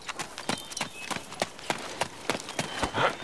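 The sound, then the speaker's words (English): Hoofbeats of a mule ridden bareback at a long, splay-footed trot: many sharp clip-clop strikes in a steady, quick rhythm, with no voices. “Cyrus untied the mule, wriggled up bareback, and rode the animal away in a long, splay-footed trot”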